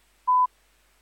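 A single short electronic keypad tone as a telephone is dialed, one steady pitch held briefly and alone, with silence before and after.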